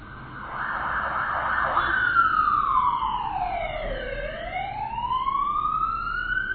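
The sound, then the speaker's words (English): An ambulance siren passes loudly, its wail sliding down in pitch to a low point and then climbing back up as the vehicle goes by, heard on its own. “that's an ambulance. Somebody's life has just been interrupted.”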